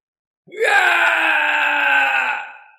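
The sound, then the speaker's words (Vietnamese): A long, mournful scream voiced for a demonized old monk: one loud, strained, sustained cry of about two seconds that fades at the end, heard alone. “Một tiếng kêu thê lương vang lên, bộ mặt của lão tăng này trở nên dữ tợn, trong miệng sinh ra răng nanh, trong mắt nhuốm máu, gào lớn rồi lại lao lên.”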